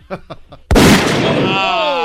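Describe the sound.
A gunshot from a pistol or carbine, played as a single loud sharp blast with a long ringing decay. It comes right after a few short spoken syllables.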